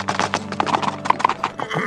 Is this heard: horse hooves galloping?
yes